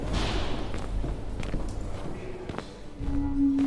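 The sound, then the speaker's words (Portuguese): A man walks through hospital corridors, his soft, evenly spaced footsteps faint over a constant low hum, and a steady low tone enters near the end. “Em hospital, o sujeito estava caminhando pelos corredores.”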